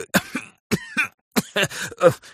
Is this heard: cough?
yes